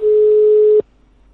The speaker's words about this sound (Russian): Трубки не берут. Отключен телефон. Так, еще раз набираю.